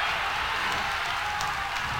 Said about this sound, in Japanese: いやー、すごい歓声だ。